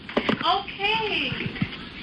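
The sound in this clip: A young daughter making noise in the background: a high child's voice with gliding, sing-song pitch, surrounded by a few short taps and thuds.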